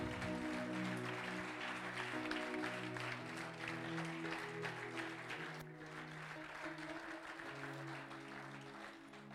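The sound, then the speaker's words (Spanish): A church audience applauds after a sermon reading: dense, steady clapping that lasts about nine seconds over sustained musical chords, with the clapping fading slightly partway through. “Yo le daría un fuerte aplauso.”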